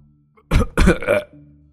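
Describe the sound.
A man chokes and coughs while eating, spluttering food out of his mouth: three quick, loud, wet bursts close together over a faint steady background tone.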